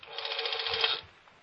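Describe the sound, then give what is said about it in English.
A rotary telephone dial turns and whirs in an office, one continuous buzzing whirr lasting about a second before fading away. “I slip into Mama Greenspan's office on the first floor and get my thumb in the dial.”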